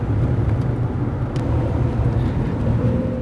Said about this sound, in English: we're just gonna keep driving to the green room and then pick up there.